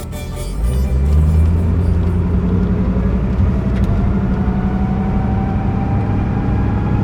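A vehicle drives for hours across the high Bolivian altiplano plateau toward a large city's outskirts. A steady, loud engine and road rumble swells in during the first second and then holds evenly throughout, with no voices.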